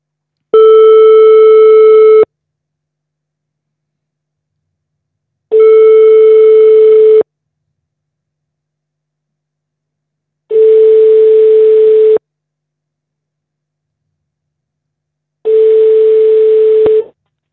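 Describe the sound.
Telephone ringback tones while calls are placed in a phone-in quiz game: four loud, steady buzzing tones of about two seconds each, spaced evenly with long silent gaps between them.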